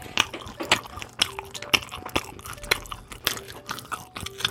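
Someone eats Pfälzer Saumagen, a stuffed pork stomach, with many crisp crunching bites and wet chewing sounds in an irregular rhythm, fairly loud and without talk.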